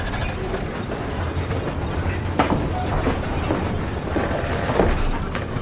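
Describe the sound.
The steady rumble and clatter of a moving passenger train bound for Cartagena and the beach, a loud continuous roar with occasional metallic clanks and rattles running through it.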